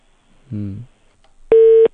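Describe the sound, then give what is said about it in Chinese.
A telephone busy tone sounds on a call that fails to connect. A short, low, buzzy burst comes first, then a single steady, clear beep at one pitch. “打不通要再打一次啊。”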